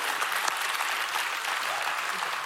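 Sustained, dense applause from an audience clapping for a worship team on stage, a steady, loud wash of hand claps with no let-up.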